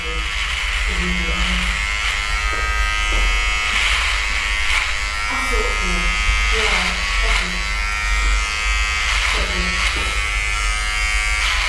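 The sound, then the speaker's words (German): An electric clipper trims thick beard hair, a steady, loud buzzing drone that runs the whole time while people talk over it. “Da muss ich an die Maschine. Meine Barthaare sind zu dick.”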